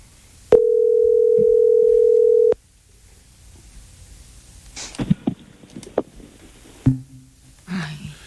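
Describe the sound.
Telephone dial tone after a call is hung up: a steady, unbroken tone lasting about two seconds that then cuts off, followed by scattered short clicks and handling noises.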